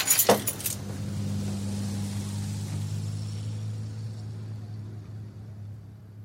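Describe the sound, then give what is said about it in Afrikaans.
Keys jangle in a brief bright burst while someone locks up, followed by a steady low hum that continues to the end. “Wag net vir my, ek sluit gou.”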